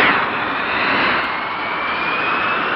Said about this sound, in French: Istres, dans ce Mirage 3C, le pilote d'essai Jacqueline Auriol, guidé du sol par l'ingénieur Durand, tente de battre le record féminin de vitesse en circuit fermé.